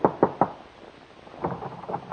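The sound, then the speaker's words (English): Knocking on a door: three quick, sharp raps, a short pause, then a quieter, looser series of several taps. “Your hand trembles as you knock on the door.”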